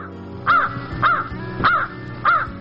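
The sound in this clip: A crow caws four times, harsh, nasal calls spaced evenly about half a second apart, each loud and clear above a low, steady background hum.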